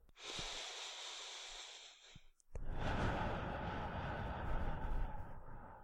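A slow, deep breath taken during a guided tapping exercise: a long, airy rush of breath, a short pause, then a second, longer and fuller breathy stream. No one speaks.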